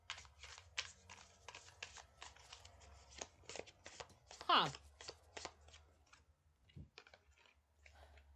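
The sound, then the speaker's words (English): Tarot cards are handled and drawn from the deck in a reading, making many quick, crisp flicks and taps that come in a fairly even patter, mostly faint. “Let's pull for maybe just one card for her and one card for him, and then we can interpret the cards together.”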